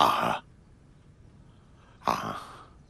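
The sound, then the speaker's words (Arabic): Two harsh coughs from someone who has just choked, separated by a pause of silence, each a short rough burst. “مرحى مرحى، خذ نفسا نفسا. لقد اختنقت.”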